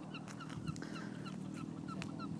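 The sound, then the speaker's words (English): Seagulls calling by the sea: many short, sharp cries repeat throughout over a steady low rumble. “But there's some seagulls.”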